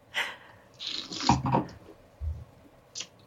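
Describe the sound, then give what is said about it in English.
Sniffing and sipping a drink swirled in a wine glass: a few soft, breathy inhales and a wet slurping sip, separated by short quiet gaps, with no talking. “I actually put it in a wine glass and I'm swirling it. And what I'm doing, I'm increasing surface area. So I actually get to smell more of the liquid in there. So I'm gonna drink this like, I guess, wine. Let's try it and see.”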